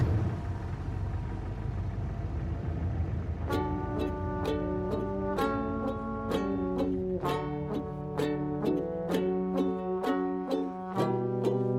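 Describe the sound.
A car engine idling while it warms up, a steady low rumble heard alone at first and then under a plucked melodic tune that starts a few seconds in.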